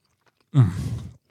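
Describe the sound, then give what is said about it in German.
A single short burst of chewing on bread with apple-chive liver sausage, a soft, moist mouth crunch that starts abruptly and fades out within about half a second. “Und zwar geht's los mit einer Apfelschnittlauchleberwurst. Das finde ich schon mal gut. Ja, lass dir mal schmecken.”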